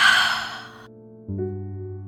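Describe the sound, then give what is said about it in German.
A deep exhaled breath during a guided breathing exercise, a soft breathy rush lasting under a second that fades out, followed by steady low sustained tones. “Atme tief ein und wieder aus. Einatmen. Ausatmen.”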